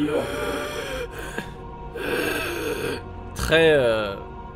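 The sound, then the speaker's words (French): A voice imitates the laboured breathing of a dying man lying down: a few long, raspy, strained breaths separated by short pauses, ending in a louder rattling gasp. “je pouvais imaginer que l'homme qui est allongé, lui, a une respiration”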